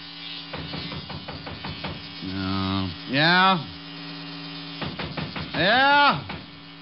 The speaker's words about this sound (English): So I put it on the piano and went in and started to shave.